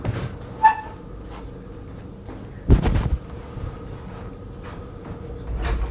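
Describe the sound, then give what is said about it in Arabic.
A door is opened after a knock: one brief, fairly loud clatter midway, with a faint creak earlier, over a quiet room background and no talk. “اللي بيخبط على الباب عايزك انت”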